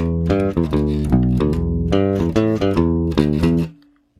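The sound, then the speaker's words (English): An electric bass through a Jazz bass bridge pickup plays a quick riff of many plucked notes with a punchy midrange and thinner low end. The last note rings briefly and fades to silence. “Jazz now, bass would sound like this. Jazz bass bridge.”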